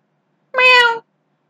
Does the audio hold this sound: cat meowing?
yes